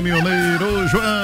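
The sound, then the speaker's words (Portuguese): A rooster crows under a voice speaking Portuguese, the crow's harmonic tone wavering and dipping in pitch over the brief stretch. “Olha o galo cantando pro João,”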